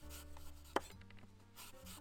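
A single crisp knife cut through a Starking apple, one sharp short snap standing out against an otherwise quiet background.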